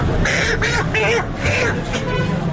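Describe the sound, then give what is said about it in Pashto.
Farm chickens squawk and cluck at a poultry shop in Peshawar's Saddar area. Loud, nasal calls repeat roughly every half second over a constant noisy background. “دا اوازونه په پیښور صدر کې د فارمی چرګانو پر دکان کې دي.”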